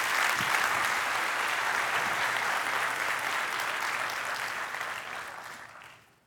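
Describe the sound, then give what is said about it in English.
An audience claps to welcome three guests onto a platform, steady, dense applause that holds evenly for several seconds before tapering off and fading out at the end. “Would you put your hands together and welcome them to the platform?”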